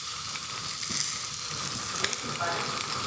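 Steak frying in a pan on stove burners: a steady, loud, crackling sizzle with a few sharper pops scattered through it, and no talk over it.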